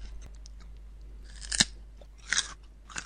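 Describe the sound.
Crunchy chewing of raw carrot, a few crisp bites spaced about a second apart, each a short sharp burst, with no talking.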